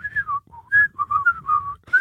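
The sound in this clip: A person whistles a tune alone: a string of clear, bright notes stepping up and down in pitch, grouped into short phrases with brief gaps between them.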